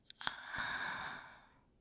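Heavy breathing: a couple of tiny mouth clicks, then one long, breathy exhale that swells and slowly fades out.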